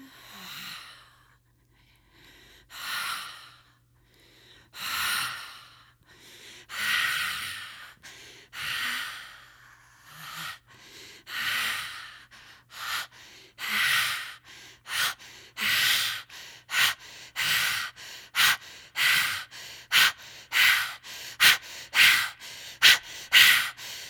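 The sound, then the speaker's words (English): Deep breathing during a guided relaxation meditation: many loud, rushing breaths with no talk, slow and widely spaced at first, then growing shorter and quicker toward the end. “Deep breath and relax.”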